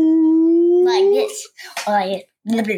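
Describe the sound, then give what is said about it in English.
A child's voice imitates a whale call with a long, sustained tone that slowly rises in pitch, followed by a few shorter voiced bursts. “Maybe they talk like whales. Maybe like”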